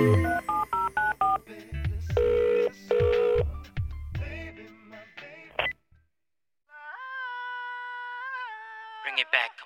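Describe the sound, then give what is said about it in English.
Touch-tone telephone keypad dialing tones within a song, heard as a quick run of bright electronic beeps over a beat, followed by a longer sustained tone. “When you're all alone, pick up your phone and dial.”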